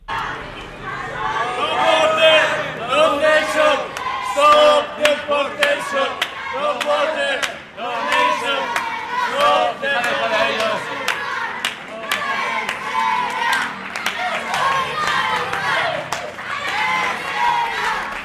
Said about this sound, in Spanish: supongo que también ha habido momentos gratificantes como este que vamos a escuchar, que es el de la bienvenida que os dieron los propios refugiados.